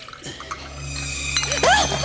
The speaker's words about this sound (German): Gieß mir bitte noch etwas Jagertee ein.